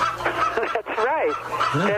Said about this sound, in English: I didn't hear them cock-a-doodle-doo yet, but they're making all the other sounds that roosters make, because I know. Well, I've heard them. You can hear them right now.